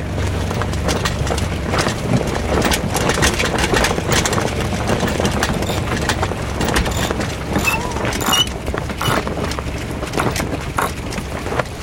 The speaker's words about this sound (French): arrêter le moteur, grand voile d'abord. Grand voile d'abord et puis on peut commencer à baisser déjà le régime.